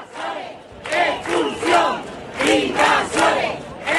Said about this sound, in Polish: Takie można było usłyszeć okrzyki.